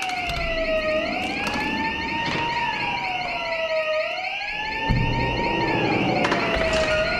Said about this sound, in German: Jede Anlage hat auch ihre Tücken. Vielleicht ein Fehlalarm.